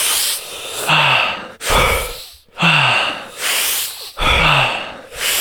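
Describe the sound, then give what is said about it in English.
Deep breaths in and out during a breathing exercise, loud and airy, each rushing inhale followed by a long sighing exhale, repeating in a steady rhythm with no talk. “Big breaths. Fully in. Let go.”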